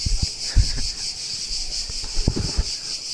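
Insects chirp outdoors in an urban community setting, forming a steady high-pitched drone that pulses faintly throughout, with low, uneven wind bumps rumbling underneath.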